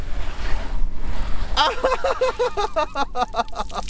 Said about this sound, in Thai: ฉีดน้ำด้วยเหรอนี่เดี๋ยวมาดูเราก็ไม่ต้องเอาน้ำไปไม่ต้องหนักใช่ไหม ใช่ครับ มันจะฉีดพุ่งเลยนะ